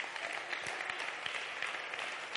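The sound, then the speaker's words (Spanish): An audience at a worship service breaks into applause: a steady, dense wash of many hands clapping at once, with no voices standing out above it. “Dale un aplauso al Rey.”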